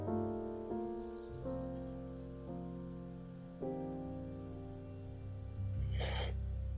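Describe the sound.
A deep inhale of smoke shows as a brief, breathy rush of air near the end, with a softer hiss earlier, over steady, loud music with low sustained tones that shift in steps.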